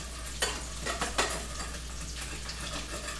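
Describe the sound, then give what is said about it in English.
Food sizzles and spits as it fries in overly hot olive oil while being turned to brown on all sides: a steady hiss throughout, with two brief louder crackles early on. “So I'm just turning them. And again, I just want them to be browned all the way around. Nice and toasty. Okay. This oil is like a little bit too hot. I'm gonna lower it a little bit.”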